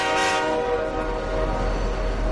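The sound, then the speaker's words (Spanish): A train horn blares in one steady, sustained tone through the whole clip over a low rumble, at a commuter rail station in Madrid. “En este caso ocurrió en una estación de tren.”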